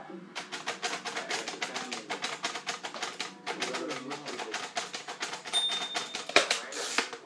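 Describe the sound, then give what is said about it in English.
Braille writer keys clack out grade one braille in a slow, steady run of many sharp mechanical strikes, with a brief pause partway through before the even, measured typing resumes. “I'm writing grade one braille, that's why it's slow.”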